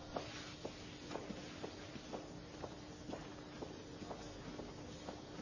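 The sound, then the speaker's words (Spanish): Footsteps go down a flight of stairs inside a building: many faint, evenly paced taps continue throughout at a steady walking rhythm over a low background hiss. “Baja unas escaleras.”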